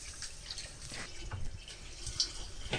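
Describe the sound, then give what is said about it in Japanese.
Rice being washed by hand in a bowl of water, then drained: faint, steady watery swishing with scattered small drips and splashes throughout, no voices. “お米を優しく揉むようにして洗います。優しく洗ったら水をしっかり切ります。これを 2,3 回繰り返します。”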